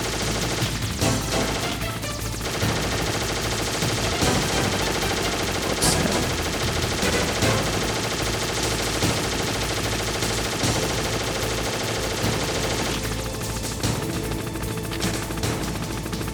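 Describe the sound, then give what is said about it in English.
Rapid gunfire rattles through a shooter video game, dense bursts and machine-gun-like streams of shots running almost without pause, loud and sharp, with occasional heavier crashes and no voices over it. “Get him? Yep. Oh, I just shot myself, really?”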